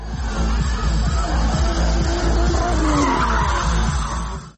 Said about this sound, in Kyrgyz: авто сүйүүчүлөрү дрифт өнөрүн көрсөтөт